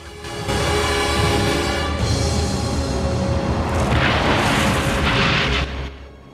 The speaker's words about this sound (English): One explodes on a car's bonnet and it crashes.